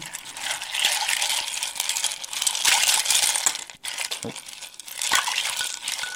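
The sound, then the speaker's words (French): Ice rattles and clinks inside a glass as a mojito is stirred with a long bar spoon, a steady run of many small chinks and knocks lasting about six seconds. “Donc, on va mélanger dans notre verre. Oui. On mélange avec la fameuse longue cuillère.”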